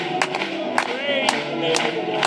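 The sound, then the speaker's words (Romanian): Hands clap for the conductor in a church, with a few sharp claps landing at a steady pace over a murmur of crowd voices and some raised, sustained vocal tones. “Puteți să-l aplaudăm pe el încă o dată?”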